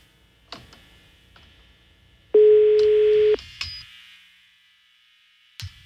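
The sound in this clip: Telephone ringback tone on a call that goes unanswered to voicemail: one steady, mid-pitched tone of about a second, with a few faint clicks before and after and no voices.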